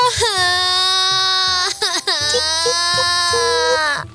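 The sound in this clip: A child cries in a loud, high, sustained wail, with one brief catch of breath midway before the crying resumes and holds steady to the end.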